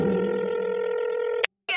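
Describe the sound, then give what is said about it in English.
A telephone keypad tone sounds as a number is dialed: one steady, sustained electronic beep holds for well over a second, breaks off into brief silence, then another tone begins. “Dialing the number.”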